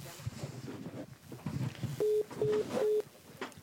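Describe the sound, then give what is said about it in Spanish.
A telephone call is dialed but fails to connect, giving three short, steady, mid-pitched tones in quick succession after a stretch of low muffled noise. “A ver si entra la llamada, porque hace rato no entró. Estamos marcando.”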